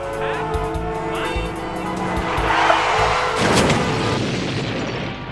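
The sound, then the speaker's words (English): A car crash with skidding: a loud, sustained squeal of tires and engine roar gives way partway through to a heavy, rumbling impact noise that carries on to the end, with no voices. “A huge crash has just occurred directly behind the K-Day's mobile station.”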